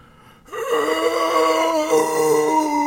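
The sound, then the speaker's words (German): A voice imitates zombie noises. After a brief quiet start, a loud, drawn-out, voiced moan sets in and holds until the end, wavering slightly in pitch. “mach mal Zombie-Geräusche”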